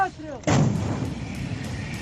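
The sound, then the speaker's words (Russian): A single heavy boom from an American M777A2 howitzer firing in eastern Ukraine, a sudden loud blast that rolls into a long, slowly fading rumble, just after a brief voice. “Новейшая американская гаубица М777А2 готовится к боевой работе на востоке Украины.”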